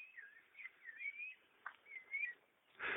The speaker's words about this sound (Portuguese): Vocês estão podendo escutar o passarinho aí, o barulho do vento nas árvores, bem poético.